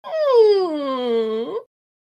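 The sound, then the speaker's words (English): A voice imitates the whine of the Chamberlain character from The Dark Crystal. It is a single loud, drawn-out nasal whine of about a second and a half, sliding down in pitch and then turning sharply upward before it cuts off. “I'm doing my best Chamberlain impression from the Dark Crystal.”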